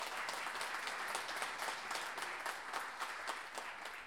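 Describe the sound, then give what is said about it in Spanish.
An audience applauds a performer at an improvised verse tournament, producing a steady, dense wash of clapping that holds an even, moderate level throughout. “Un aplauso para ella.”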